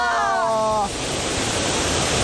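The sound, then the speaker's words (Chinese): A waterfall below a scenic lookout, a loud, steady rushing wash of falling water that fills the whole clip, with a brief exclaiming voice at the start. “底下还有瀑布。”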